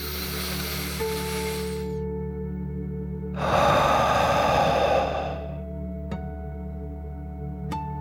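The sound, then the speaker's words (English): A deep breath in and out during a guided relaxation exercise: a breathy rush of air swells for about a second and a half, then fades under soft, steady background music tones. “Are you ready to take one more deep dragon breath? Here we go. Deep breath, in and out.”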